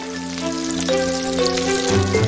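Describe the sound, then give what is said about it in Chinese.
Lamb skewers fry in hot mutton fat inside an iron drum, giving a steady, dense sizzle that holds at an even loudness throughout, with faint tonal sounds running beneath it. “肉串短暂预烤，就要放入特制的铁桶中，快速过滚油。”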